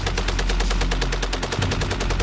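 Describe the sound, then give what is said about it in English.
Machine gun, a weapon rated at ten rounds per second, fires one loud, sustained burst of rapid, evenly spaced shots over a deep rumbling low end, with no pauses between the cracks. “Ingenious, impersonal, totally overwhelming. This, the machine gun.”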